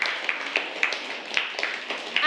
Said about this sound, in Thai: ปรบมือให้กับตัวแทนด้วยค่ะ